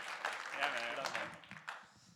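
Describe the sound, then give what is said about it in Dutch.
Congregation applauding in a church service for a guest speaker: steady, fairly soft clapping from many hands, with voices and cheers mixed in. “Dus laten we hem aanmoedigen. Laten we hem een applaus geven. Hier vanochtend.”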